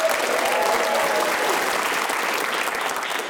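An audience applauds as a Scottish comedian walks on stage. Dense, steady clapping stays loud for the whole stretch and eases slightly at the very end.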